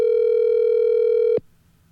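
Telephone ringback tone on a call just before it goes to voicemail: a steady, mid-pitched buzzing tone held for over a second, then cut off abruptly by a click, leaving near silence.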